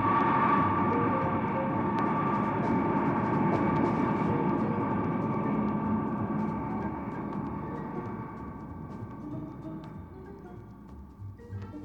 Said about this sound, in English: The Air Force B-52, the blunt, dark shape of the X-15 tucked under the starboard wing protectively, taxis past us and is soon to be airborne.